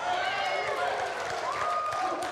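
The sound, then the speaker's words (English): A Trinity Church audience cheering, hooting and hollering at a first Sunday service of the new year, a continuous dense roar of voices with high whoops riding on top, steady and loud. “The hoots and hollers and everything else.”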